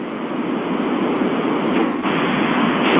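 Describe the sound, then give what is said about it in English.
Railway station background noise comes through a breaking-up phone line as a steady, band-limited, hissy rumble. It stays fairly even throughout, with no clear voices standing out. “Sounds like he's in the middle of a railway station.”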